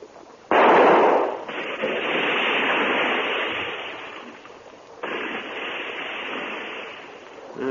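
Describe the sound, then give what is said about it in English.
Two gunshots fired at a creature in a radio drama, each a sudden loud blast followed by a long rushing roar that slowly fades before the next shot. “Well, I'll have to shoot. Keep the light steady.”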